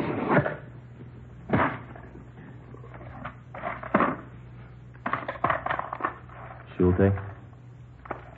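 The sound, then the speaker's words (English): Rustling and wooden clatter as a taped-shut cigar box is opened: a few short, knocking bursts over a low hum, with voices talking around them. “It's a cigar box. It's taped shut. What's inside, Doctor? Nothing you'd be interested in. I'll open it, Joe.”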